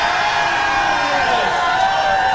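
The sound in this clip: A quiz show audience cheers to vote for a team, a dense and steady roar of crowd noise with scattered whoops that holds at a constant loud level throughout.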